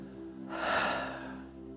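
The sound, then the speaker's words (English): A single long, deep breath taken by worshippers just before prayer, a soft airy rush that swells and then slowly fades over about a second, with a faint steady hum beneath it. “just before we pray, just take one really big, deep breath.”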